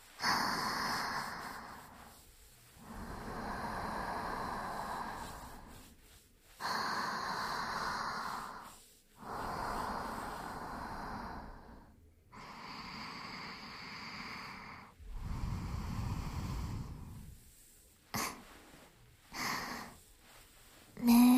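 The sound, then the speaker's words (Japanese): Slow, deep breathing by one person, drawn in and let out in long, steady breaths of a few seconds each, with brief pauses between them and a few shorter breaths near the end, without talk. “なるべく息止めないで、ゆっくり深呼吸してください。”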